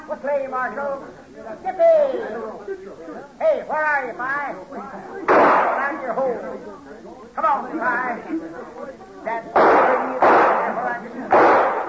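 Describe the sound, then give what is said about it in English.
Gunshots ring out amid talking voices: several sharp, loud cracks break in over ongoing speech, clustered mostly toward the end. “That's enough shooting. Come on back.”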